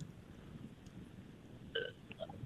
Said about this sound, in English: No, that's the sound of the brain fart.